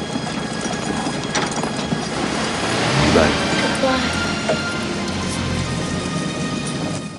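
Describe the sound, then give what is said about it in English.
A jeep starts and drives through a battlefield, giving a continuous rattling, clanking mechanical clatter that swells briefly around the middle before settling back to a steady churn. “Troutman starts the jeep and they drive through the battlefield.”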